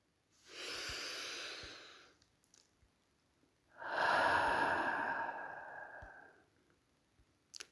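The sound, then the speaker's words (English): A deep, rejuvenating breath, soft and close: a long airy breath sound is followed after a pause by a second, longer and stronger one, with quiet clicks between. “Often after a breath like that, I would end the episode, but it was a rejuvenating breath”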